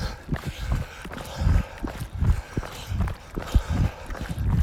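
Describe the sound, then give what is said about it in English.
Running footsteps on a road from a runner wearing an Amphipod hydration belt: many steady, rhythmic low thuds at an even pace, moderately loud, with no voices. “So I'm running with this Amphipod belt. Get back on the road here.”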